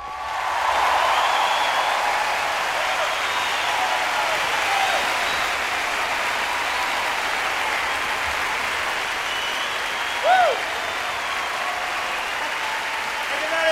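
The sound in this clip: Loud, sustained audience applause for a performing band, a dense, even wash of clapping throughout, with a brief whistle rising over it near the end.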